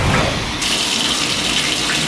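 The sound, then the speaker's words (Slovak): Steady running water from a morning shower, a loud continuous hiss and splash with no pauses and a slight brightening of the spray partway through. “Taká ranná osviežujúca sprcha padne naozaj dobre.”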